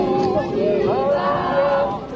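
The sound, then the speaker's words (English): A crowd singing and calling out to a lowered religious figure during a devotional celebration: sustained sung voices with wavering pitch over a bed of loud murmuring and chatter. “Crowds are now touching her, singing to her, asking for blessings.”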